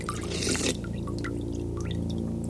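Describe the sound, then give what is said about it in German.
Water of an underground lake in a cave washes and trickles as a steady wet hiss, with scattered faint drips throughout and a louder splashing surge at the start. “Ein See. Ein unterirdischer See in einer Höhle.”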